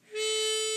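A harmonica sounds the unbent three draw note, a bright, reedy tone that swells in quickly and then holds steady for the rest of the short clip.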